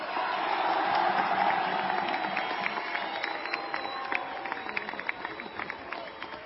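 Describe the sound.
A crowd gives an ovation to an economy minister, sustained cheering and applause with many voices that gradually eases in intensity.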